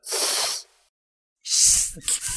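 A person imitates a hiss with the tongue tip against the lower front teeth and the tongue slightly arched, as pronunciation practice. There are two long, bright hisses separated by a pause, and the second is rougher with some low voiced noise.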